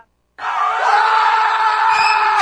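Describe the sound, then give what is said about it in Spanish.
Loud crowd cheering and screaming on a radio programme, bursting in abruptly after a moment of silence and holding steady as a sustained, high-pitched roar of many voices. “Bien, aplausos ahora sí, vamos. Aplausos a la compañera.”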